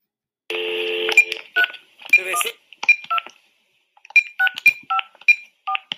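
Telephone keypad tones as a number is dialed again: a longer tone opens, then many short, crisp beeps follow in quick, uneven succession, with a brief silent pause midway before the rapid dialing resumes.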